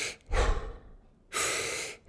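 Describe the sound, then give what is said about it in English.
Deep, forceful breaths are drawn and released at a quick, controlled pace as part of a Wim Hof breathing exercise, each breath a loud, airy rush separated by brief quiet gaps. “So the breathing method, as I'll do it twice, so I'll do 30 breaths going,”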